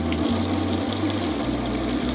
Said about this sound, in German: Egal wo, in den 13 Ortschaften bei uns in der Gemeinde Diemelsee der Wasserhahn aufgedreht wird. Ja, es kann noch ein bisschen mehr sein, bitte. Ja, noch mehr.